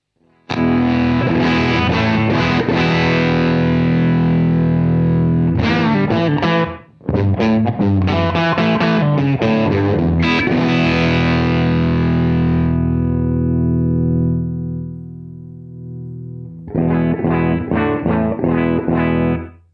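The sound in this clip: Electric guitar through an effects unit with only the second volume channel on gives a dark, thick, somewhat muddy distorted tone. Loud strummed chords and riffs ring out in phrases, broken by a short gap and a longer quiet fade before a final burst.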